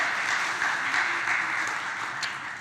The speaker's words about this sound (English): So why don't we give them a hand and welcome them.